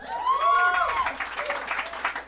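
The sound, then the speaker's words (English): Light applause from a small live audience of about seven people, a thin, steady patter of clapping lasting about two seconds, with an enthusiastic whoop rising and falling near the start. “This is a smattering of applause. Yeah, but an enthusiastic small portion of our crowd, like 7 people really were into that.”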